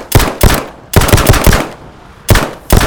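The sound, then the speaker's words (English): Loud automatic gunfire as a hand switched into gun mode is test-fired: several rapid bursts of sharp, punchy shots separated by brief gaps, heard alone without talk. “Gun mode. Hand, gun mode. Oh, there we go. There we go. Right, test fire.”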